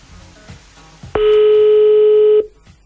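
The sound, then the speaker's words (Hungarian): A telephone tone as a call is placed to a radio listener: a click, then one steady, loud, unwavering tone lasting just over a second before it cuts off, with faint noise before it. “Itt vagyunk, hívjuk a naphallgatóját, és már hívtuk is”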